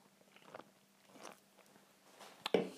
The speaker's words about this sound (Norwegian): sikkert veldig plagsomt at jeg sitter og spiser her